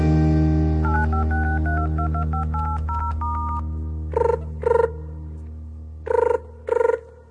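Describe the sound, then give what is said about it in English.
A touch-tone telephone is dialed for a phone call from jail: four short, clear beeps in two pairs over steady musical backing, with no talking. “Then he dialed the telephone and softly he spoke.”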